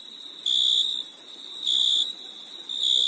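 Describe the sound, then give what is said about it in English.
A crickets-chirping sound effect: a steady, high, shrill trill that swells louder three times and drops back between swells, with nothing else heard. “in case you're wondering, that's the sound of crickets”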